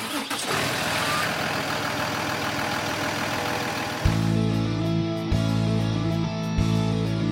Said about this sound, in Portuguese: Mas é isso aí, motorista. Já tá tudo certo aqui. Bora ligar o busão.